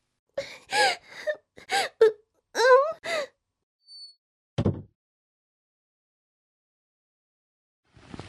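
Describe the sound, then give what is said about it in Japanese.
A person crying and wailing in a string of short, strained sobbing cries, then a pause and one last breathy sob before near silence. “いきなり泣かないでよ。”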